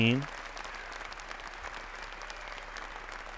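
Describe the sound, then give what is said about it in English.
A concert audience applauds on a live recording made in Vienna on December 1, 2016. A final sustained musical note fades in the opening moment, then dense, even clapping continues steadily at moderate volume. “You don't need to hear that much applause.”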